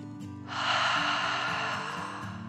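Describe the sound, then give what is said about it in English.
A long, deep breath is drawn in and let out slowly during a children's bedtime guided meditation. The breathy hiss swells and then fades over a soft, steady musical tone underneath. “Feeling quite content, he took another deep dragon breath in and out.”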